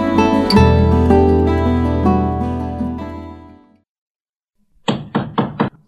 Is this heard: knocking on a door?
yes